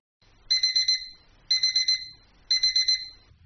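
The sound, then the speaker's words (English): A digital alarm clock beeps in three evenly spaced bursts about a second apart, each a quick run of short, bright, high-pitched pulses, with quiet low hum between bursts. “A sound like this or something similar should be familiar to most of us. It's a digital alarm clock.”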